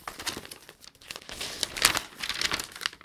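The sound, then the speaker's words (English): Paper crinkling and rustling as a warranty card is handled while someone sorts through a junk drawer, with many uneven crackles and crumples continuing throughout. “what the hell is this? Oh, this is the warranty card for my watch, my other watch that no longer has support on it.”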